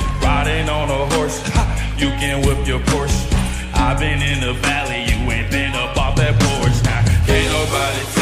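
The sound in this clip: A pop song performed live on stage, with loud, dense band music driven by a steady, punchy beat and a heavy low end, continuing without pause throughout.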